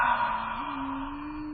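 Owl-like hoot of a nocturnal bird, one sustained low tone lasting about a second and a half that steps slightly higher partway through, over a hissy background.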